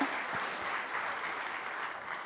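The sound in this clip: An audience at a church applauds to welcome a guest speaker, with dense, steady clapping that holds evenly throughout.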